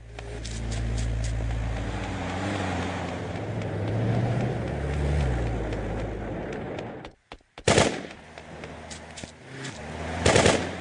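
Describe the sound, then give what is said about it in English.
Machine-gun fire rattles in a long rapid volley over a low engine drone. After a brief gap of silence, two short, loud bursts follow. “Machine gun!”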